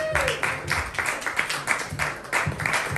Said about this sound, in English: Give a round of applause, everybody!